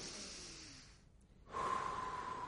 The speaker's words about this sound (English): Take a deep breath. Just in through the nose, out through the mouth.